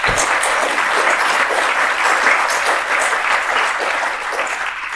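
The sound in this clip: Audience applause welcomes a speaker, a loud, dense and even stream of clapping that eases slightly toward the end.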